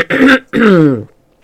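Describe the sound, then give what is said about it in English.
Throat clearing from a narrator voicing a character in a spoken story: two rough, throaty bursts, the second longer, followed by quiet. “Lorelei was about to whack Homer with the diary when Hercules, who'd been oddly quiet, cleared his throat.”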